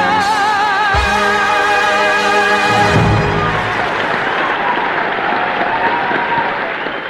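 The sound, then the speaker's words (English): A Broadway audience gives a standing ovation: dense, loud, sustained applause over the fading last notes of music, continuing evenly and thinning slightly at the end. “And just as the audience settle down after their standing ovation”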